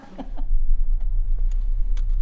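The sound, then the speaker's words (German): Car driving between appointments: a loud, steady low rumble with a few faint taps and clicks over it, and no talk. “Im Auto geht es zum nächsten Termin.”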